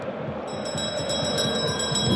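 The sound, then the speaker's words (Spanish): A bell rung by a sacristan in quick, even repeated strokes, bright and metallic with sustained ringing tones, starting a moment in and continuing steadily to the end. “Tócame la campana, Sacristán.”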